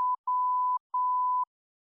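A cockpit angle-of-attack and overload warning alarm sounds as three clean, mid-pitched electronic tones: a brief first beep, then two longer steady tones of about half a second each, separated by short gaps, with no speech.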